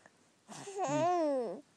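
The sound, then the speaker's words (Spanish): A baby babbles in a single drawn-out voiced sound of about a second. It is high and wavers in pitch, on its own in otherwise quiet surroundings. “Sí, mi amor, sí. Increíble su elocuencia. Ustedes verán cómo me cuenta las cosas este bebé.”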